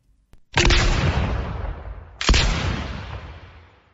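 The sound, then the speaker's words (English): Two gunshots while hunting in a video game, each a sharp, loud blast followed by a long rumbling decay that fades away. “Nice shooting. Right on target.”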